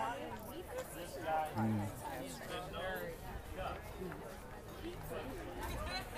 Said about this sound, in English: The Santa Cruz Farmers Market is going off as per usual, which is good. You can hear it in the background. I'm sure people talking and carrying on.